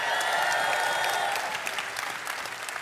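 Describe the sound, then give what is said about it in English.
Audience applause and cheering erupt at a live community event, starting as a full burst of clapping and voices, then thinning into scattered claps toward the end. “Make some noise for that.”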